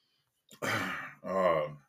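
A person clears their throat in two short voiced bursts, rough at first and then smoother, heard alone.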